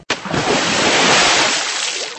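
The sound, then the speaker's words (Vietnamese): Water splashes up in a sudden loud burst, then churns and sloshes in a steady, rushing wash that slowly fades. “Sau đó nghe một tiếng, Tiểu Ngô quay người vừa đúng lúc nhìn thấy nước bắn lên tung tóe.”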